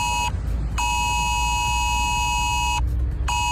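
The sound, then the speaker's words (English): Emergency mobile phone text alert tone blaring: a loud, steady, piercing electronic tone rich in harmonics, sounding in long blasts separated by brief gaps, with a faint low rumble beneath and no voices. “Ireland could be getting an emergency text alert system which would warn us about things like extreme weather.”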